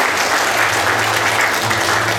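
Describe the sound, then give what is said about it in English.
Audience applause gives a loud, dense, steady wash of clapping that holds at an even level for about two seconds without pausing. “one more round of applause for Navi Hunter from James Cameron's Avatar.”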